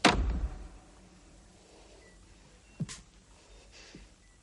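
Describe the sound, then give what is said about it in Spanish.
A piano lid is shut with one loud, dull thud at the start, followed by quiet and a couple of faint knocks later on. “Él va hacia el piano y cierra la tapa.”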